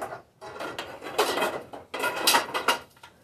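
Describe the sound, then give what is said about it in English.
Light bulbs being pulled out of light fixtures, heard as a few soft clattering and scraping handling sounds at low level, in bursts with short pauses between them and no talk. “So now he's opening the lights. Now he's taking the light bulbs out.”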